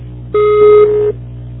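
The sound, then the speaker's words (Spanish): A voicemail beep tone sounds before message recording: a single steady mid-pitched electronic beep lasting under a second, over a constant low hum. “Por favor, deja tu mensaje después del tono. Si necesitas volver a grabar, marca el segundo número y espera instrucciones.”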